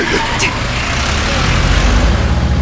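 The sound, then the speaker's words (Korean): A laundry shop's Bongo van accelerating: a dense, steady roar of engine and road noise that swells slightly louder toward the end. “내 차는 어디다 두고 세탁소 봉고차 끌고 왔어요?”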